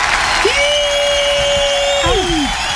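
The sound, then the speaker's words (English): Studio audience applauding and cheering a returning guest's entrance on a stage show. The dense clapping holds steady throughout, with one long sustained whoop that dips in pitch at its end. “Ladies and gentlemen, please put your hands together and welcome back into the studio.”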